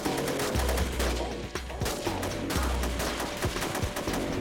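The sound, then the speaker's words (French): Dense gunfire from a shootout between robbers and a police SWAT sniper on a city street: many rapid, sharp overlapping shots and bursts that crack loudly and continuously over a low rumbling backdrop. “les voleurs ouvrirent le feu sur les policiers. Un tireur d'élite de l'unité SWAT riposta à leur coup de feu.”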